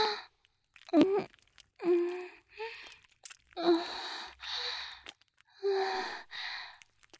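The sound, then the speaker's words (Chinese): Heavy breathing full of breathy sighs and gasps: many loud exhalations in an uneven rhythm, several starting with a low voiced tone, with no speech. “你的呼吸好重啊。”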